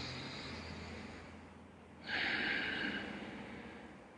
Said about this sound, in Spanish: Tomas un par de respiraciones profundas y te haces más consciente de esta bolita de luz